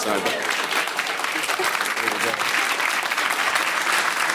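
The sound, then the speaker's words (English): Applause and crowd noise from a live audience, dense and loud from start to finish, with voices mixed into the clapping. “That audience reaction was whoa.”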